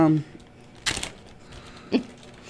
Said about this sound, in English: all of a sudden we hear a zippy open. Zip bag opens on air for the people on the radio side.